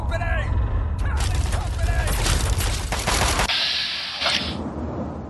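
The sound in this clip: Video-game gunfire in a firefight with a super mutant: dense bursts of rapid, loud shots crowd together for a few seconds, then give way to a quieter, hissing tail.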